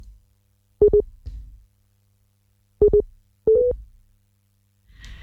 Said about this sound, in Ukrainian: Алло? Не є дуже добре з'єднання.